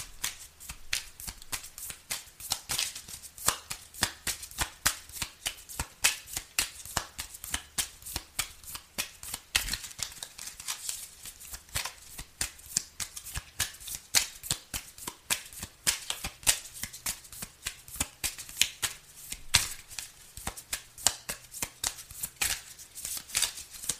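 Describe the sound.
Tarot cards being shuffled: a long run of many crisp, quick riffling snaps in uneven bursts, fairly quiet, with no voices.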